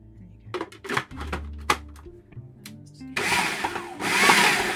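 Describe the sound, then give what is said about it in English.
A blender chops chives: a few clicks and handling knocks come first, then the motor kicks in with a loud, steady, rough whirring that runs to the end. “So we're just going to blend this to chop it up finally. Just a little chive chopped in.”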